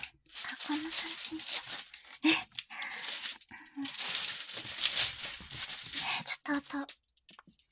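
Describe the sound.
Aluminium foil crinkles and crackles as it is spread out and stepped on, in uneven bursts of papery rustling broken by short pauses, with a person talking.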